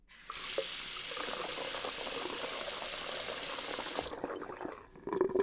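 Water rushes from a tap into a watering can being filled to the brim. The pour is a steady, even gush for about four seconds, then cuts off, and faint handling noises follow.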